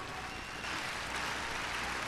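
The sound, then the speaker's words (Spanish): Applause offered to the Lord during a sermon: a dense, steady patter of many hands clapping that swells slightly partway through and holds to the end. “Dele mejor ese aplauso al Señor.”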